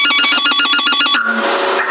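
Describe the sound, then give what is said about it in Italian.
A telephone rings downstairs, heard over a CB radio link. A rapid warbling trill of bright, repeated pulses gives way after about a second to a thinner, noisier tone, loud and without talk. “Questo è il telefono che mi stanno chiamando da giù.”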